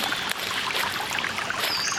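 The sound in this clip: Water flows into a beach lagoon, making a steady, unbroken rushing trickle with a bright hiss that stays at an even loudness throughout.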